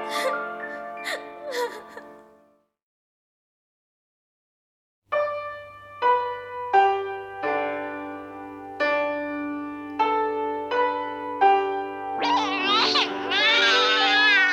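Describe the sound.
A baby crying in a staged Vietnamese folk opera drama: high, wailing cries with a wavering pitch. Sustained melodic instrument notes are also heard.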